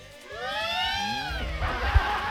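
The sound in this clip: A cat gives one drawn-out meow whose pitch arches up and then down, followed by low rumbling and a soft thump near the end.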